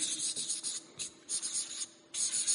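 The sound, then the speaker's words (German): Writing on a board makes a faint, scratchy rasp in a series of short strokes with brief pauses between them. No one speaks. “Ich muss wahrscheinlich ein bisschen größer schreiben.”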